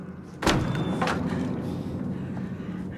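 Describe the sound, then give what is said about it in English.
The wooden door of an outside toilet in a backyard bangs as it swings back and forth, giving two faint knocking thumps, the first slightly stronger, over a low background murmur. “The door swings back and forth against it.”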